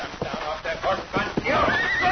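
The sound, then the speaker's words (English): A horse neighs in a western scene, a loud whinny with clip-clopping hooves before it. “Come down off that horse, Pancho.”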